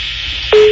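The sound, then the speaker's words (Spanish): A telephone ringback tone on an outgoing call: one steady, mid-pitched tone starts loudly just past the halfway point and holds to the end, following a stretch of low hiss. “Sonando el teléfono de la señora que tiene un chorro de perros, gatos, conejos. Sonando ahí.”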